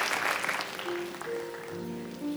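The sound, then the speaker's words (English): A church audience claps in praise, a fairly soft, steady patter of many hands with sustained musical notes ringing beneath it. “Can we give God a hand clap of praise in here?”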